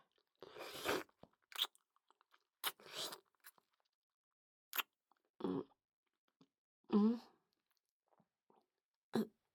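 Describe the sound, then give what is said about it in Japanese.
Wet kissing and smacking mouth sounds come in several short, faint bursts separated by silence, some crisp and some longer and more drawn out. “君とのキスが気持ちよすぎて、つい夢中になっちゃった。”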